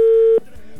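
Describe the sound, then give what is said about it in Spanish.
Telephone ringing tone on an outgoing call: one steady, mid-pitched electronic tone that holds for under half a second, then cuts off abruptly, leaving a faint low hum. “esperamos que nos pueda tomar la llamada. Ya entró, ya está sonando.”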